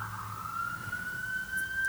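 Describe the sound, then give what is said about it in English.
A police car siren sounds as a single steady, faint tone that rises slowly in pitch across the whole stretch, with no voices over it. “And if you don't, that police car is what's coming for you.”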